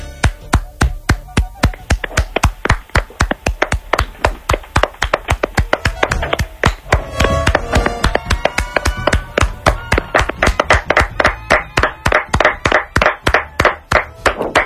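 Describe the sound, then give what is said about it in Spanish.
A small show team claps hands together in a steady rhythmic beat. Many sharp, loud claps fall at a regular pace with short gaps between them, and no voices are heard. “Y desde aquí pues queríamos darle este humilde aplauso de parte del equipo que hace especialistas secundarios y de todos sus oyentes.”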